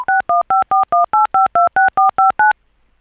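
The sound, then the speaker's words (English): Touch-tone keypad beeps sound as someone keys numbers into a voicemail system: about twelve quick dual-pitched tones in an even, rapid rhythm, loud and alone, followed by silence. “You have pressed an incorrect key.”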